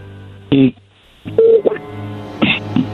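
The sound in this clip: A telephone is dialed: a few short, clear electronic keypad tones beep at uneven intervals, with a voice speaking between them.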